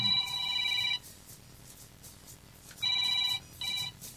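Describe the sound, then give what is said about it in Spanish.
A telephone rings in bright, trilling bursts: one long ring, then after a pause two shorter rings close together. The ringing is fairly quiet, with no talk. “Ahora está llamando.”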